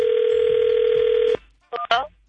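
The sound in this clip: Telephone tones as a phone call is placed: a loud, steady dial tone holds for over a second and cuts off, followed by a couple of short, sharp bursts.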